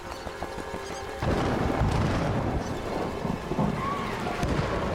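A raging thunderstorm with heavy rain and thunder lashes an outdoor compound. A quieter opening gives way to a sudden loud surge of dense, roaring noise with deep rumbling that holds steady to the end.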